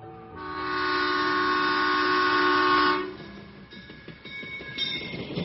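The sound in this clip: A train pulls away from a station: a steady horn sounds for a few seconds, then cuts off into the rumble and clatter of the moving train.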